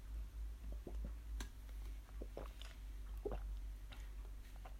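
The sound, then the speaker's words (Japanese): Someone drinks a beverage in soft gulps, with faint swallowing sounds and small wet clicks scattered over a quiet steady hum. “じゃあ飲み物飲んでいきます。グビッとね。”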